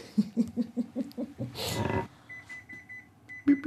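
Oven timer beeping while biscuits bake: a high, steady electronic tone sounding in two stretches after a brief burst of rushing noise, preceded by a series of lower rhythmic pulses.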